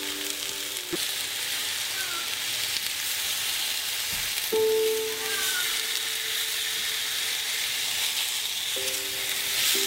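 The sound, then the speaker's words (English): Loud, steady sizzling of hunted game meat searing in a hot pan, a continuous hiss that holds evenly for the whole stretch. “Oh yeah, look at that. Good sear.”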